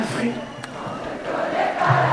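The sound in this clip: Thousands of spectators singing in chorus at a big evening concert at Cap Ferret: a dense, blurred mass of many voices held steadily and fairly loud throughout.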